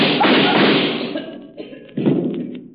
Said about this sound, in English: so, Kelvin, you shot Berger and added murder to your other crime.